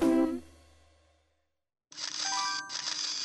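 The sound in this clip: A camera sound effect begins with a bright ringing chime that fades away. After a short silence comes a longer, hissing, bright burst threaded with thin tones.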